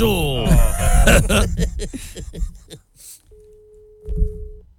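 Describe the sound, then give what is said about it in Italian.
Busy tone on a telephone line: after a stretch of talk, a thin, steady mid-pitched tone holds for over a second, with some muffled noise under its end. “A me sembrava che era linea occupata, faceva riprova.”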